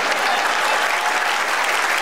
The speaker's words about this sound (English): Round of applause when he gets his puppet.